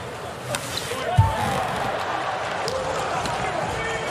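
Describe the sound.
A volleyball serve struck during a Poland versus Ukraine match: a single sharp thump rises briefly over a steady wash of crowd noise that continues throughout.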